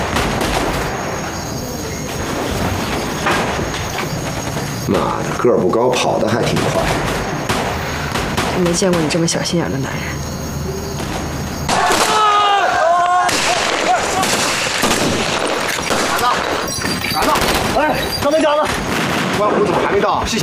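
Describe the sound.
Gunfire from a drama gunfight, with many sharp shots cracking in irregular bursts and some rapid volleys, while people talk over the shooting.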